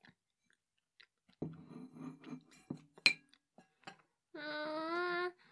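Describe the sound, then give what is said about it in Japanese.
Chewing on a last bite of meat from a curry: a few soft, crunchy chewing sounds, then a hummed, voiced 'mm' of enjoyment near the end. “最後の一口多いかな。まあいいや。あー、食べちゃうぞ。”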